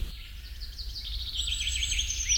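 A European robin sings, with thin, high, warbling phrases and quick trills that run on continuously and grow slightly fuller toward the end, over a low, steady rumble.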